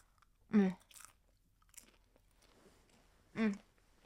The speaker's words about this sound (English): I'm just gonna have a little bit of popcorn first because it's sitting here on my lap.